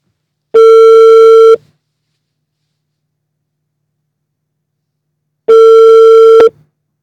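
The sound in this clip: A telephone tone sounds as a call is placed: two loud, steady beeps, each lasting about a second, separated by about four seconds of silence, with no voices.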